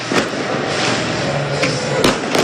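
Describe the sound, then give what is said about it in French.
Fireworks set off by football supporters from a stadium stand, a few sharp bangs over a dense, loud, continuous wash of noise. “Ce feu d'artifice tiré par les supporters du MNK depuis la tribune Borély, hein. Au-dessus du ciel d'Ornano”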